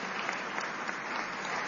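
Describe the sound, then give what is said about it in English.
Applause from an event audience greets a guest as a steady, dense wash of clapping. It is fairly faint and even throughout, with no single claps standing out and no voices. “Big round of applause for Callie.”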